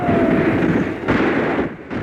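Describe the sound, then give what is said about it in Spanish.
Gunfire rattles as bullets pierce the wooden walls of a shelter, a loud, dense roar of bursts that runs almost unbroken with a couple of brief dips. “Los tres quedan boca abajo mientras las balas zumban a su alrededor, perforando las paredes de madera del refugio.”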